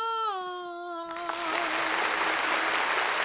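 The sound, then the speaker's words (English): Audience applause for an electric violinist and dancer: a held harmonic tone opens, then a dense, steady wash of clapping rises at about one second and continues to the end. “What a warm round of applause. That's a big audience.”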